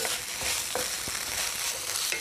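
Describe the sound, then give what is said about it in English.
Food frying in a greased pan over a gas flame while being stirred: a steady, faint hiss and crackle with a few soft scrapes and taps from the stirring, and no voices. “A bit of grease, guys, a bit of stir around. Just turn the gas down a bit.”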